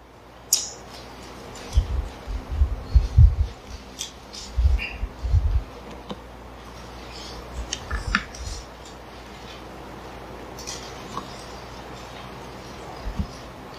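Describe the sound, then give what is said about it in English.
Many Bible pages turn during a church service: soft, scattered papery rustles and light thumps, with no talking. “love to hear them pages turning”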